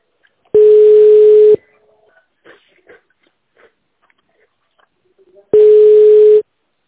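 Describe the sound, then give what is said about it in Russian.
Telephone line tones during a call transfer: two loud, steady, mid-pitched tones, each about a second long, separated by roughly four seconds of near silence with faint scattered noises. “Выполняется перевод вызова. Ждите на линии.”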